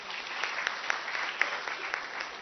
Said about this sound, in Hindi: ताली बजाओ उसको